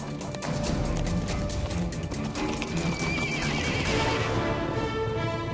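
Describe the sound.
Horses neigh and gallop at the Nemzeti Vágta horse festival on Budapest's Heroes' Square. Loud, shrill whinnies rise over a steady, dense rumble of pounding hooves.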